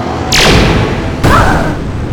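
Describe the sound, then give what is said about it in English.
Laser blasts as a giant lion robot fires a green laser at another robot: two loud zaps, the first sweeping sharply down in pitch, the second a booming burst with a wavering tone that fades out. “The dome of the Lion Thunderzord glows and fires a green laser that blasts the Blue Shogun Zord.”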